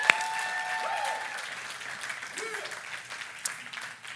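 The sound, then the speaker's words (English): A church audience applauds for the fathers on Father's Day, a broad wash of clapping that gradually thins and fades while a voice speaks over it. “Can we just give it up like crazy for all of our dads? Come on, that's awesome.”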